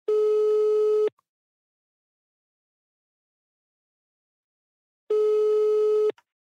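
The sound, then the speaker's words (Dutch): Ringback tone while placing a phone call: two identical long, steady electronic tones of about a second each, loud and clean, separated by roughly four seconds of silence. “Dus we gaan er even bellen.”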